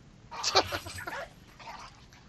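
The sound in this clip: A dog vocalizes in a few quick, sharp bursts, barks and yips close together before fading to quiet, heard faintly against low background noise in a scene where it reacts aggressively.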